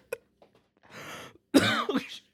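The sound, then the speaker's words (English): Coughing from someone choking on beer: a short cough, then a breathy sputtering burst, then a louder strained run of raspy, voiced coughs. “Choking on my beer.”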